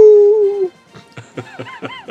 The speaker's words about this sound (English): He did a stand-up act for a pack of werewolves. He had them howling all night.